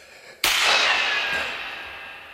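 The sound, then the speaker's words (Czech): Gunshot heard in the open: one sudden, loud crack after near silence, followed by a long ringing decay that fades slowly over about two seconds, with no voices. “Ty výstřely. To bylo po vás?”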